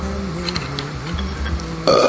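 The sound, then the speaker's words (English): A person burps after drinking wine: one long, low, croaking belch that rumbles steadily for about two seconds, heard alone with no talk. “did I just burp wine? Yes, you just burped.”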